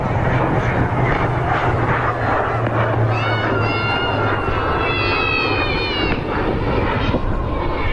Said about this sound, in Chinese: 正在滑上跑道的，马上要起飞的是我们空军的绿鲸指挥机空警五百，空军五百。